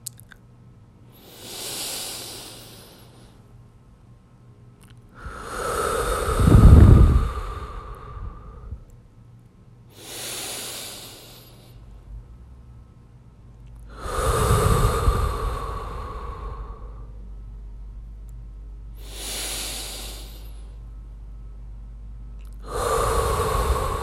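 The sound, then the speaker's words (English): Deep, long breaths drawn slowly one after another, each swelling and fading in a calm, even rhythm. Some exhalations are fuller and louder than others, with no talking. “let's go ahead and take 6 deep breaths. Follow along. They'll be deep and long.”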